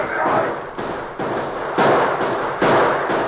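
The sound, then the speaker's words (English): Gunfire as a band of men opens fire: a few loud, sharp bursts of shots break in one after another, each trailing into rough, crackling noise. “Just as the Lone Ranger and Tonto mounted, Bull Davis's men saw them and opened fire.”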